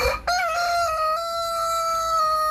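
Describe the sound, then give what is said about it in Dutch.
A rooster crows once, a loud, sustained cock-a-doodle-doo that holds a fairly steady pitch through its long tail, heard alone. “Het geluid van je jeugd. Ja. De kukelende haan, ja.”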